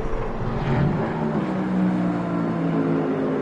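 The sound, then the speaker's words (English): A racing car engine drones steadily as the car returns to the circuit during a practice session, a sustained low tone without clear revving. “Practice two, the Myers Riley car went off early on this session. That car looks like it is coming back”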